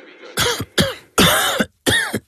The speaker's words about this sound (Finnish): älä suotta köhi